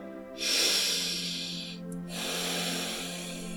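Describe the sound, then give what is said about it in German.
A deep breath drawn in and then let out, heard as two long, soft, airy rushes with a short pause between them, over a quiet steady background tone. “Und du nimmst einen tiefen Atemzug.”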